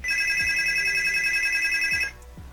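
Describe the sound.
A telephone rings with an incoming call. A steady, high electronic ring tone holds for about two seconds, then cuts off, leaving a faint low hum.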